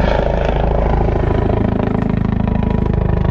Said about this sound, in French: La marine représentée par la frégate de surveillance Nivoz et ses hélicoptères Panther.